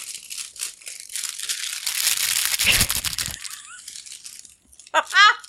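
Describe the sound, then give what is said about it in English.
Crinkling clear plastic wrap as it is pulled off a box: a dense, continuous rustle and crackle for about three seconds, then quieter handling and a brief voice near the end. “I may keep the crinkling. Normally, I try to be really quiet when I do this, but sometimes it's like, forget it. So you take the plastic, clear plastic around from the box.”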